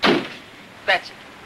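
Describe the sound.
A car door slams shut as a passenger gets out at a large brick apartment building. There are two short, hard thumps, the first longer and broader, the second a brief knock.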